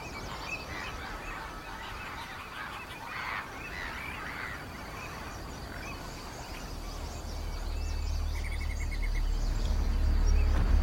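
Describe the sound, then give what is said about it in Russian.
Geese honk as they fly in a series of nasal calls, fairly faint, while a low rumble swells toward the end. “Смотрит в бинокль на летящих гусей.”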